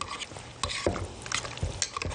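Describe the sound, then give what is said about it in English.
Stirring and mixing a dish with a utensil: a series of clinking, scraping strokes against the bowl, with a few sharper knocks, heard alone with no talk. “Just give it another mix round like that.”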